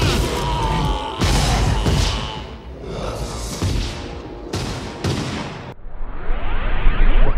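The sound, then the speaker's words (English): Raptor attack scene from the Jurassic Park film: a loud, chaotic mix of bellowing roars, crashes and swooshes, with abrupt cuts and jumps in intensity throughout. “Well, we have a raptor attack, and then we move on”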